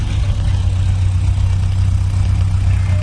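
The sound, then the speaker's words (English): Steady, loud engine drone of a 1952 Ford 8N tractor fitted with a rear mower, running at a club tractor show; a low, even rumble holds unbroken for the whole stretch with no clear revving. “27 is a 1952 Ford 8N, and it's driven by our newest member of the club.”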